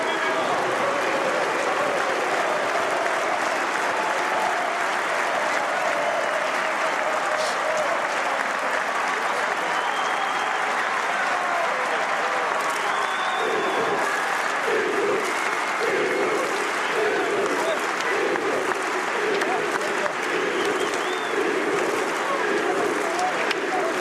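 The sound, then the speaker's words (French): A stadium crowd gives a sustained ovation as a footballer leaves the pitch, with loud, dense applause and cheering that stays steady throughout and takes on a rhythmic pulse partway through. “Zidane sort! On écoute l'ovation de Chaban-Delmas.”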